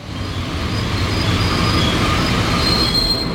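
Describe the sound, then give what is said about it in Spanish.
Train braking to a stop, its wheels squealing in a high, steady screech over a loud, continuous rail rumble that lasts throughout. “El tren se está parando.”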